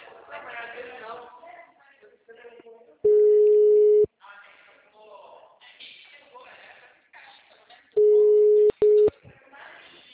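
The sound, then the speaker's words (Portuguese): Telephone busy-signal tones on a dialed number that is not answering: one long steady mid-pitched tone, then two shorter ones, between stretches of people talking. “O número discado não está atendendo.”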